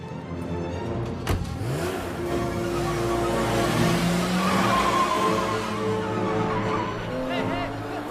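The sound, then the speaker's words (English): A BMW car's engine roars and revs hard as it speeds off, with squealing tires. The loud, continuous acceleration runs for about eight seconds. “leaps into the BMW. He starts it up and speeds off.”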